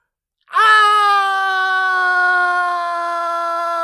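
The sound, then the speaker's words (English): Victor Von Doom screams while struck by lightning in a movie, a man's single long, loud, sustained cry that holds a steady, strained pitch without a break. “Victor Von Doom getting shot by lightning. Audience, this is a condensed version. He does scream for approximately 5 to 6 minutes straight before he gets stopped.”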